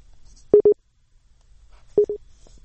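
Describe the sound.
Telephone ringback tone as a call connects on the line: two separate rings, each a short double pulse at a steady mid pitch, with a quiet pause between them and no voices.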